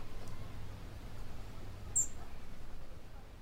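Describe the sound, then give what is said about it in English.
A robin calling: one short, bright, high-pitched chirp rings out midway over a faint, steady low background hiss. “Hark! I hear a robin calling.”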